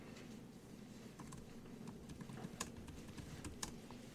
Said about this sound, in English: I'm counting. I'm typing it up.